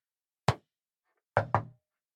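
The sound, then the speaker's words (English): Three sharp knocks: a single one, then a quick pair about a second later, with silence around them. “I would like to communicate back with you only with knocks, only with yes or no responses.”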